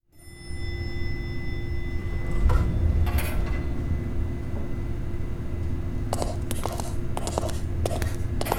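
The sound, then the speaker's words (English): A hidden elevator behind an office bookshelf runs with a steady low motor hum and a sustained tonal drone. A few mechanical clunks come early, then a cluster of sharp rattling clicks near the end. “An elevator behind a bookshelf in your office. How clever.”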